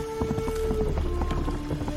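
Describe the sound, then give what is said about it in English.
Horse hooves gallop through puddles in a video game, a quick run of splashy, wet thuds over a steady tonal drone. “when the horse is galloping in puddles, there's water splashing”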